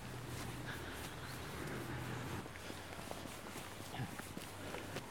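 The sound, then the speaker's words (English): Footsteps walk along an estate road toward a central green, soft, steady steps heard faintly over constant outdoor background noise. “Now we're going to walk up to the central green space in the estate called Willow Green.”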